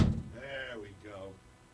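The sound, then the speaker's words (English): A big, heavy door slams shut with one loud, low thud right at the start, then a voice talks over the fading resonance. “Got to close the door. Got to slam big-ass door. I got to incarcerate myself.”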